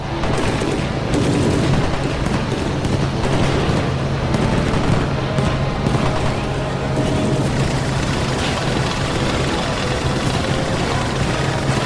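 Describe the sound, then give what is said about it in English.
Sustained gunfire as everyone opens fire from side-hatch turrets at a passing target: a dense, continuous barrage of rapid shots that holds at a steady loud level for the whole stretch, with no pause. “Shoot him before he passes us up. Go on! Open fire, everyone!”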